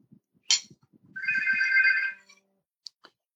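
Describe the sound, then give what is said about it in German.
A phone rings with an incoming call, sounding one burst of bright, high electronic ringtone tones lasting about a second, with a few faint knocks and clicks before it and two short sharp ticks after. “Wer ruft denn jetzt an?”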